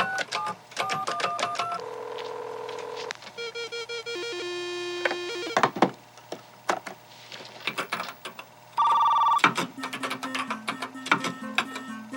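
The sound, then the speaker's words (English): A modem dials into a school computer, sending a run of electronic beeps and sustained tones with clicks in between and a loud steady tone burst near the end. The tones shift in pitch from one sequence to the next. “Dialing into the school's computer.”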